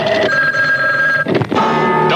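A telephone rings after a number is dialed for a radio cash phone giveaway: a loud, steady electronic ringing tone with a brief break just past the midpoint before it resumes, with no voices.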